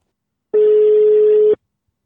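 Ringback tone on a telephone while a call is being placed, sounding as one steady mid-pitched electronic beep of about one second, alone and without speech, followed by quiet.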